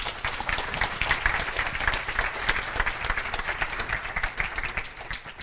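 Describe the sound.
An audience applauds to welcome a priest before a talk, with steady, dense clapping that holds evenly throughout without pause.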